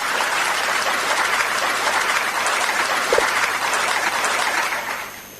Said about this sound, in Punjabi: ਤਾਲੀਆਂ ਵਜਾ ਦਈਏ ਆਪਾਂ ਪਹਿਲਾਂ ਤਾਂ।